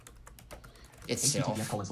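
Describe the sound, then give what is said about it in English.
Computer keyboard typing while entering a name into a search field, with a few quick clicking keystrokes in the first second, followed by a speech-like voice over louder continued activity. “let's just type in a name here.”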